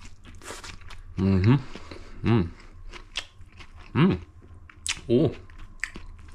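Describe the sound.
Chewing tortellini tossed with pumpkin seeds, pumpkin seed oil, olive oil and lamb's lettuce: soft, moist crunching and biting clicks, broken by several short, voiced hums of appreciation.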